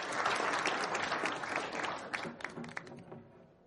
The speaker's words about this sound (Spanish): Todos aplauden y alzan sus copas para brindar.